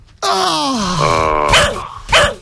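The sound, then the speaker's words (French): A person imitates a dog barking: a long, loud falling whine-like groan, then two short, sharp, harsh bark-like bursts in quick succession. “Je peux faire waf waf. Ouais, vas-y, aboie encore.”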